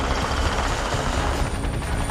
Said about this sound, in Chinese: 阿帕奇武装直升机于1986年开始服役美国陆军。